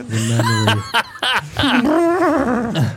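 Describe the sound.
A voice imitates an elephant's trumpeting with a few loud, nasal, harmonic bursts, ending in a longer wavering, trumpet-like call.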